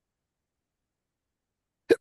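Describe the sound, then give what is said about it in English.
A single short hiccup from a person, one sharp, brief gulp near the end that breaks an otherwise silent stretch. “Oh my God, hiccups. I'm sorry.”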